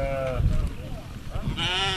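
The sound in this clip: Sheep bleat twice, a wavering bleat at the start and another near the end, with low muffled background noise between them.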